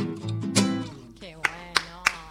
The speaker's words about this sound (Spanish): Aplaudo yo sola, no porque el resto no quiera aplaudir, sino porque todos están filmando con sus celulares.